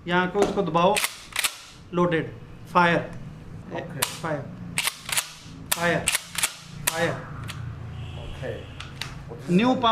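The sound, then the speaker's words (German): A pump-action shotgun fires a rapid series of sharp, loud cracks with short gaps between them, while people talk throughout. “Das hier ist etwas ganz Neues, eine Pumpgun mit 5 Patronen, die nacheinander abgefeuert werden können.”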